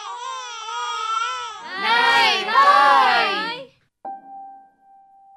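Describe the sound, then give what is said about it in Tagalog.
An infant crying in loud, strained, wavering wails that grow harsher and more intense over several seconds before breaking off, followed by a short, steady electronic tone. “umiyak na naman”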